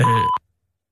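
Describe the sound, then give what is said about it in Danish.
An answering machine sounds one steady, mid-pitched beep that lasts about a third of a second and then cuts off into silence. “Velkommen til telefonsvareren. Indtal en meddelelse efter klartonen.”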